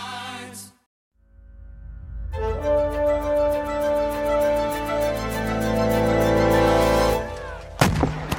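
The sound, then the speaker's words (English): Rolling artillery and mortar fire over Charleston Harbor in 1861 forms a sustained deep rumble layered with a droning tone after a short silence, ending in a sharp burst. “It's before sunrise on April 12, 1861, but the sky above Charleston Harbor is ablaze with light. Mortar shells whistle through the air. The thunder of artillery rolls across the mouth of the harbor”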